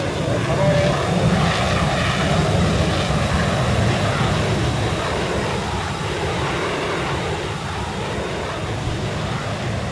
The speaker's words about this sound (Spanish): en estos momentos el avión DC-8 que traslada al Perón y a 154 pasajeros más a la Argentina después de 17 años está casi, podríamos decir